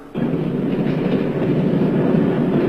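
A train running on rails, used as a radio drama sound effect, sets in abruptly and continues as a steady, loud, low rumble with a faint rattling texture and no voices.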